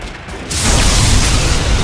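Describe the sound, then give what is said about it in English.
A loud explosion erupts at temple ruins, set off by an explosive-tipped javelin. A half-second of rough noise gives way to a sudden, powerful blast that swells into a dense, sustained roaring rumble. “An explosion erupted at the temple ruins, ending the storm of bolts raining on Grant.”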